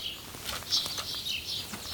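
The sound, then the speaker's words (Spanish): Northern bald ibises flapping their wings inside an aviary cage, a quiet, continuous flutter of many soft wingbeats with thin, high bird calls scattered through it. “Vamos a separar la jaula en dos partes, ¿vale? Porque tenemos que dejar algunos pájaros volando y otros que no pueden volar aún.”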